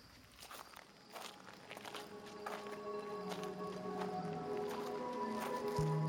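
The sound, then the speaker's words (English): Footsteps crunch on a gravel and stone walking ramp winding through woods at night: many quiet, steady steps that grow gradually louder, with no talk over them. “There's a walking ramp that's gravel, stone, that winds up and through the woods. There's no light because it's on an off night from the theater.”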